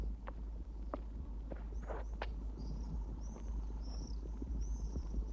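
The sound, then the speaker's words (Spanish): Footsteps climbing stairs on a steep street, a faint, even series of soft steps over steady background noise. “Sube las escaleras de una empinada calle.”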